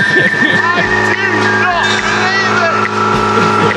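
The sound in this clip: A Toyota car's engine runs roughly after being soaked in sea salt water, a steady rumbling drone that continues under people talking throughout.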